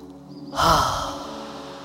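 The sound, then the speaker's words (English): A deep breath drawn during a calming breathing exercise for anxiety: a single soft, airy rush of breath that swells and then slowly fades over a steady bed of quiet, sustained music. “One more deep breath in.”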